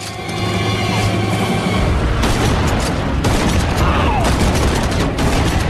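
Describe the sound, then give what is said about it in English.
Pump-action shotgun fire in an action film, loaded to the maximum during a rampage against soldiers: dense, loud volleys of shots and booms with mechanical clatter, continuous after a slightly quieter start. “Whistler taps in another auto-destruct code, loads his pump-action shotgun to the maximum, and goes on the rampage, killing soldiers one after the other.”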